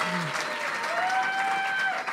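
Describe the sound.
Applause from a live comedy audience, a dense steady patter of clapping throughout, with voices and faint cheering mixed in.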